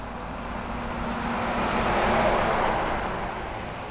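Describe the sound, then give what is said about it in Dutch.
A huge truck passes on the A12 motorway, heard from the central reservation: a broad roar that swells to a peak midway and then fades. “En nog een enorme vrachtwagen, die nemen we nog even mee.”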